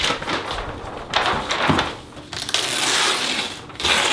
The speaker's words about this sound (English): I feel like I need to like draw all this. Yeah, let me get my chart out real quick.